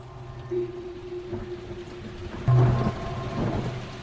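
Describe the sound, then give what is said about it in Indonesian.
Rain comes down suddenly on a cold night, with thunder. A steady pattering hiss runs throughout, and a louder low rumble swells about midway before easing back into the rain. “Kudengar saat itu hujan tiba-tiba turun dan membuat udara menjadi sangat dingin.”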